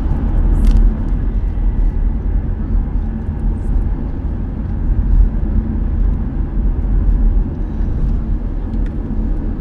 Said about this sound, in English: drive around Washington a little bit.